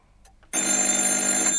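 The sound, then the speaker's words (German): A telephone bell rings in an office: one loud, continuous ring that starts suddenly after a short quiet moment and holds steady to the end. “Das Telefon klingelte.”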